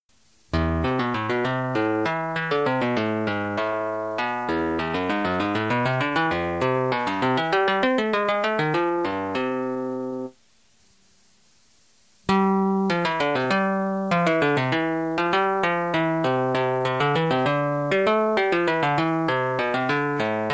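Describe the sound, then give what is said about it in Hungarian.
Music composed by a neural network trained on Bach: electronic, tuner-like tones weave steady melodic lines, break off for about two seconds midway, then resume at the same level. “Ez a változat, amit most hallottatok, ez egy Bach-ra rátanított mesterséges intelligencia eredménye.”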